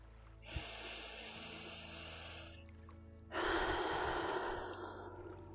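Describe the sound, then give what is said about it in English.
Slow guided breathing: a long, steady inhale through the nose, then a brief pause and a louder, fuller exhale out through the mouth, both soft airy rushes with no talking. “breathe in through your nose if you're able, and breathe out through your mouth if that's comfortable for you. Let's do that now.”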